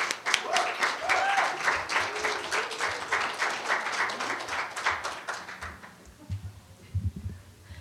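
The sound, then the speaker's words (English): Audience applause welcomes a reader onto the stage at a flash fiction reading: dense, steady clapping for about six seconds, then thinning out and fading to a few scattered claps. “put your hands together and welcome Daisy.”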